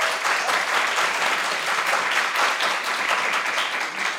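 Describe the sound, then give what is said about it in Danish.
Audience applause welcoming a guest, an association's director, dense steady clapping that holds at an even level for the whole stretch without talk. “Skal vi ikke lige give hende en hånd?”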